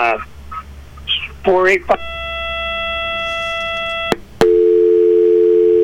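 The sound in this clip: Telephone line tones after a caller disconnects on a call-in show: a brief voice, then a steady multi-pitched drone, a sharp click, and a lower sustained tone running to the end.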